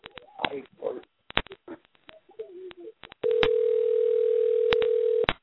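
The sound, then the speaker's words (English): A steady telephone dial tone hums for about two seconds as a caller is dialed in, with sharp clicks over it, after a few brief clicks and muffled sounds. “Let me see if I can dial him in first here. Let's see if I can patch him in.”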